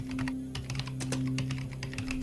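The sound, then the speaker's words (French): Rapid typing on a computer keyboard, many quick keystrokes clattering continuously over a steady low hum. “Sandorf pianota sur le clavier de la positronique.”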